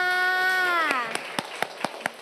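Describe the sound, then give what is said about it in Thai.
Children in a class clapping for a group: after a brief spoken voice, a handful of sparse, separate claps ring out at fairly even intervals. “สรุปกลุ่มไหนแต่งได้มากที่สุดลูกกลุ่ม2นะคะปรบมือให้กลุ่ม2ค่ะ”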